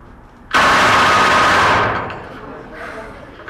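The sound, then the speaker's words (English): A rifle fires a final full-automatic blast on a firing range. A single sustained burst erupts abruptly into a dense, loud crackling roar for over a second, then fades away in a decaying tail. “Change the fire control lever to full automatic, firing bursts of two or three. And a final blast, full automatic.”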